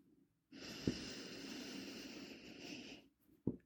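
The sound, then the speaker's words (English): A deep breath drawn in: a steady, airy rush lasting about two and a half seconds, bracketed by brief soft clicks. “All right, take a deep breath in.”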